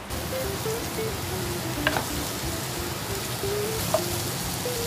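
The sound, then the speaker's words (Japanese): Onions sizzle as they are lightly stir-fried in a pan: a steady, even hiss throughout, with two brief sharp clicks partway through. No voices are heard. “玉ねぎを軽く炒めて”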